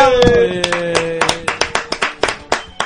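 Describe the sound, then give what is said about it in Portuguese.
Applause follows a brief sustained musical tone: sharp, separate hand claps arrive in a quick, fairly even series, many crisp strikes at moderate loudness, with no voices. “Uma salva de palmas,”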